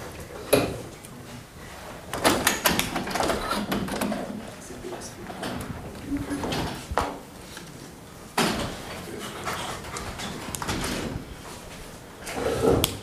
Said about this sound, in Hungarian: Ha nem fáztok, lehet egy kicsit nyitni ablakot. Oké. Okay. Szerintem ilyen bukóra lehet, hogy érdemes lenne egyiket, másikat kinyitni kicsit